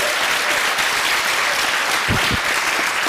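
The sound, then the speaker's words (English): An audience breaks into applause for a volunteer, a loud, dense, steady wash of clapping that keeps an even level through the whole clip. “Please have a hand for Daniel.”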